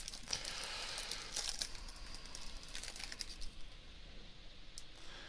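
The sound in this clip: A chunky trading card pack is torn open, its wrapper giving off quiet, crackly crinkles in short bursts that thin out and grow fainter toward the end.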